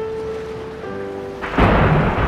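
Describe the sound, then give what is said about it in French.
Heavy rain and thunder from a violent thunderstorm burst in suddenly after a quieter opening of steady sustained tones, then hold as a loud, dense roar to the end. “La pluie tombe violemment et ils ne sont pas encore rentrés. Quel déluge! L'orage fracasse la nature.”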